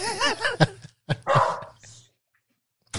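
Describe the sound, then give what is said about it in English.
Dog barking: a wavering, whining cry followed by a few sharp, loud barks, then quiet before one more short bark at the end. “is that the dog singing hallelujah for me? Yeah, that dog literally does not bark ever.”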